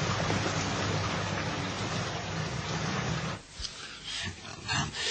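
Steady rain falls at night, a dense, even hiss for about three and a half seconds that then thins into a patchier, uneven patter.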